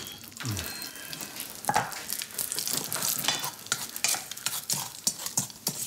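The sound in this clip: Bacon frying in a pan, a steady sizzle broken by many irregular sharp crackles and pops that continue throughout.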